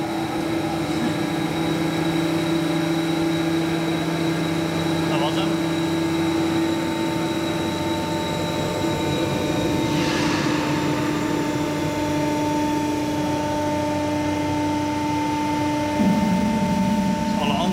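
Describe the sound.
Electric drive motors of a bascule bridge hum steadily, with several sustained tonal lines over a low drone; the tone shifts near the end as another motor appears to come on.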